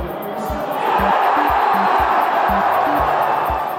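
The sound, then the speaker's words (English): Friends and strangers gathered to watch a football World Cup match on TV make a steady, loud roar of crowd voices, with a regular low thumping beat running beneath it. “That's the sound of friends and strangers gathered together to watch the World Cup on TV.”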